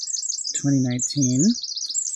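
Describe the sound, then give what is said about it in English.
Birds chirp and sing at a campground beside a stream near Elk Prairie in Prairie Creek Redwoods State Park, with quick, high twittering calls throughout and a voice speaking briefly underneath. “And I have lots of feathered friends around singing their songs and saying hello.”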